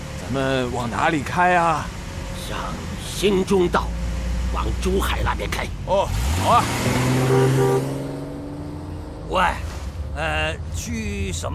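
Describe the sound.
A car engine rumbles and drives off under steady conversation between several people, its low drone rising in pitch partway through as the vehicle pulls away.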